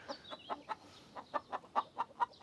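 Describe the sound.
Hens cluck while laying eggs, giving a quick series of short, mid-pitched clucks in an uneven rhythm that grow slightly louder toward the end.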